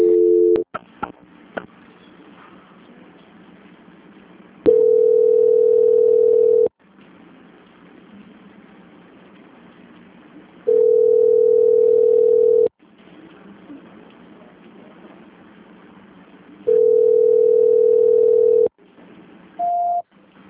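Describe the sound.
Telephone line tones sound while a call is transferred on a congested line: a few long, steady mid-pitched beeps separated by stretches of faint line hiss, ending with a short, slightly higher tone.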